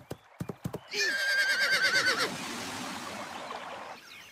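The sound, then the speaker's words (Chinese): Horse whinnying as its rider whips it over a broken bridge: a few quick hoof clops, then a loud, trembling neigh that wavers and drifts slightly lower before trailing off into a softer, breathy tail. “只见他骑着马往后倒退了几步，再一使劲儿，扬鞭奋蹄，马直接跨了过去。”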